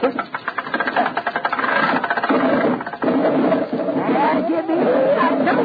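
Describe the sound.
An engine is cranked up and runs with a steady, rapid, rattling chug that holds fairly loud throughout, with voices talking over it.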